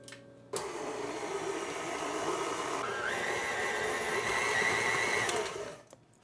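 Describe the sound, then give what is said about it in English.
A stand mixer kneading dough runs as one steady motor whir with a sustained whine that steps up in pitch partway through. It starts abruptly, holds at an even loudness with no talk, and then stops. “Now I can take that dough out of my mixer.”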